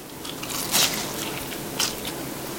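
Crisp crunches of teeth biting into a crispy fried pork cutlet: two distinct bites about a second apart, sharp and fairly quiet, with soft chewing between them.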